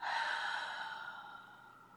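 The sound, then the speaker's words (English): A deep breath is released after being held, a soft, breathy exhale that starts strong and fades gradually over about two seconds, with no talk. “take a deep breath in, hold it, and exhale.”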